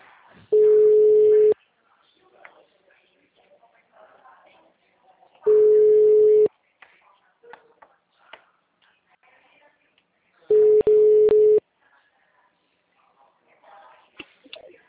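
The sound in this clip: Telephone ringback tone while a call is placed: three steady single-pitched tones, each about a second long, separated by gaps of roughly four seconds, with faint background sounds in between.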